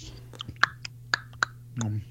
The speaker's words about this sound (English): Like a spicy ketchup, man. That's good as hell, man. Let me... That's that good ASMR, the mouthful.